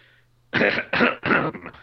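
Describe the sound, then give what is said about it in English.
A few harsh, rasping coughs come in quick succession, brought on by drinking water. Each one is a short, loud throat-clearing burst that follows a moment of near silence. “Water made you cough.”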